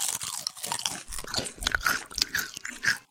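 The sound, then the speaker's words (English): Crunching down on a spicy packaged snack: many irregular, crisp crackles and snaps from chewing, quiet overall, with uneven bursts of sharper crunches scattered throughout. “I really like the flavor that fills your mouth as you crunch down”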